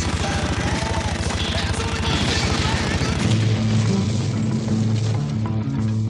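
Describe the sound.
Shooting and explosions from the Aerosmith video game form a dense, loud barrage of rapid repeated bursts and booms that gives way to more tonal game sounds in the second half.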